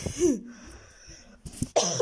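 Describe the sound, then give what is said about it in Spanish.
A person coughs in a few short, harsh bursts, fairly loud and with no other sound around them. “Ay, me dio tos.”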